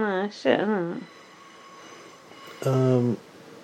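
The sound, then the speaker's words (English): Steady, broad rumbling of a train passing by in London, continuous and moderately loud, with talking voices heard before and after the rush of noise. “If you can hear that noise in the background. It's a fucking train going by. That's what London Transport sounds like.”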